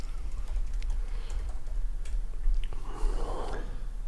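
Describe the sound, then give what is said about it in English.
Keys clatter on a computer keyboard as someone types a name into a search, a steady run of many quick, light clicks with no talking. “Type in Merchant Kong.”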